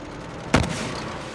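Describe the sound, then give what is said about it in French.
A single rocket launcher fires at a tank in a wartime combat account involving North Vietnamese Army forces. One sharp, loud blast rises out of steady background noise and decays quickly. “Finalement, le troisième lance-roquette qu'il utilise fait feu.”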